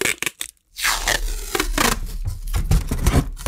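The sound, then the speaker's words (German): Adhesive packing tape pulled off the roll: a few short crackling rips, a brief silence, then one long, continuous rasping peel whose loudness wavers until the end. “Ich kann das Klebeband sogar wieder zurück auf die Rolle kleben und dann wieder abziehen.”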